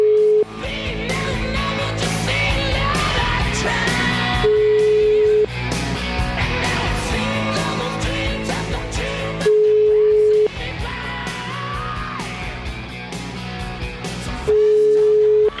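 A telephone call's ringback tone: a steady, mid-pitched beep lasting about a second that recurs roughly every five seconds, sounding over a dense, busy background.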